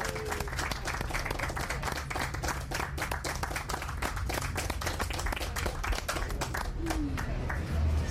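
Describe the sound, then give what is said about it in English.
Audience applause as people at a live event give themselves a hand; dense, steady clapping that continues evenly for about eight seconds. “Give yourselves a hand. You're here for the very last one of these.”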